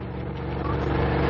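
A jeep engine arriving gives a low, steady rumble that swells slightly louder over its brief, continuous run.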